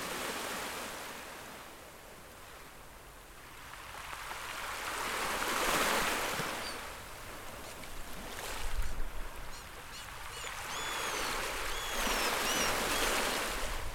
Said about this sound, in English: You can hear the sound of the wind, the rivers, the breathing of the plants.